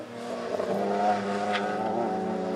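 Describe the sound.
Race cars lapping a small circuit of about two kilometres, used for corporate driving days, vehicle tests and driver training; a steady, loud engine roar with layered harmonics and a brief high-pitched whine midway.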